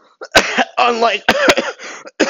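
A person coughing and clearing their throat: a run of harsh, rough coughing spurts in quick, uneven succession, loud and alone, with no talk.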